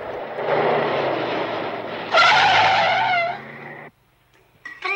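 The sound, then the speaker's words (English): A car drives off hastily: a steady engine rumble swells into a loud, wavering high whine, like revving or tire squeal, then cuts off abruptly, leaving near silence. “Duranian and his colleague drive off hastily.”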